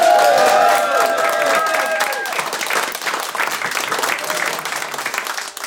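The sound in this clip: Audience applause greets a speaker walking onto the stage at a live talk event. Dense, steady clapping from a crowd continues throughout at a fairly even loudness.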